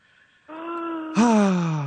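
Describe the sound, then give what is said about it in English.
A nervous caller takes a deep breath: a drawn-in, faintly voiced breath followed by a louder sighing exhale that slides down in pitch. “Take a huge deep breath.”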